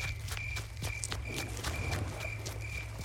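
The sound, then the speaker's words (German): Footsteps of someone running away, a quick, regular patter of light thuds over a steady low hum, fairly quiet throughout and with no voices. “Hast du das auch gehört? Da ist jemand weggelaufen.”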